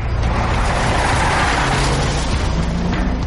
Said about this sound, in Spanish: Se montan en los automóviles y se van.